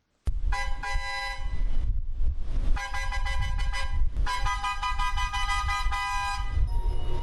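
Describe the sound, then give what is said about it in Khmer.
A train whistle sounds as a departure signal at the Phnom Penh railway station in the morning: loud, sustained, harmonic blasts, with long tones broken by brief dips, continuing almost throughout without any talking. “ស្ថិតក្នុងស្ថានីយ៍រាជាយស្ម័យយានភ្នំពេញសំឡេងស៊ីផ្លេចេញពីរថភ្លើងមួយគ្រឿងដែលជាសញ្ញានៃការចេញដំណើររថភ្លើង”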